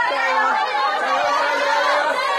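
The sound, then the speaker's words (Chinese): Teachers outside an exam hall cheer on and greet arriving students, making a steady, dense wash of overlapping voices and lively chatter. “大家看到我身后有非常多的送考老师们正在热烈的给学生们加油打招呼。”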